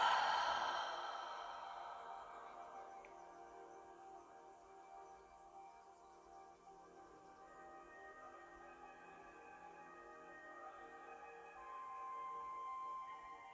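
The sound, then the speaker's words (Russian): A deep breath drawn in through the nose and let out through the mouth: slow, faint and airy, stretched over many seconds against a soft, steady background. “Глубоко вдохни через нос и выдохни через рот.”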